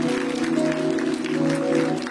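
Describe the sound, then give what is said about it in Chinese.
An audience claps together during a church service, giving a dense, steady patter of hands that holds at moderate level through the whole clip. “拍手把荣耀归给主吧。”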